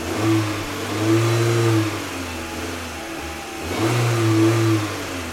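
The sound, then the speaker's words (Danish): A battered, stubby red sports car driving through snow, its engine surging in two long, loud revs with a steady mid-low hum between them, heard alone. “smed dem ind på bagsædet af sin ramponerede og buttede røde sportsvogn. Og så kørte han gennem sneen mod Annebys kunstmuseum.”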